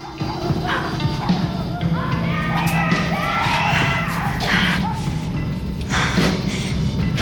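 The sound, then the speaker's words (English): Dogs yelp in a cellar amid human cries and yells, high yelping bursts rising out of a dense, continuous clamor. “Attracted by the cries and the dogs yelping, Clarice”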